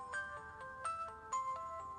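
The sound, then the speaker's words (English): Dad's mobile phone rings with a fairly quiet melodic ringtone: bright electronic notes step up and down and repeat as a short tune, with no voices over it. “It's Dad's phone. I told you to see who it is.”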